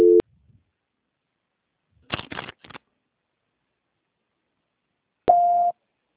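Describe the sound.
Telephone tones while a dropped call is transferred: a short steady tone, a quick cluster of clicks, then another steady tone, separated by silence.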